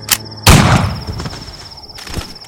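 A single loud gunshot rings out in a western-style shootout against the undead. It is a sharp, heavy blast that decays over about a second, followed by a thin, lingering high tone and a few faint later thuds.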